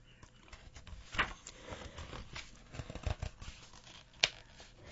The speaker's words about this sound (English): And it goes on here when I can get the page turned.